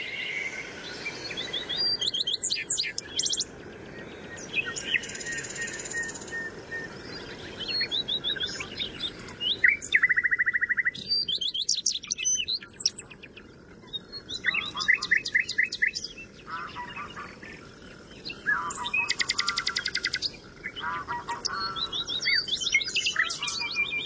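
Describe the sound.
Birdsong in the dunes: a willow warbler sings over a loud nightingale. Many short, high bright phrases overlap without pause, with chirps and trills repeating above a steady low hiss.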